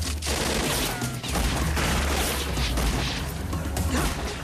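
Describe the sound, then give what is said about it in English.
Gunfire from pirates shooting at people rolling down a steep slope: a dense, sustained volley of shots, loud and continuous throughout with no clear gaps between reports, over a deep rumbling low end. “The pirates fire at them as they roll downhill.”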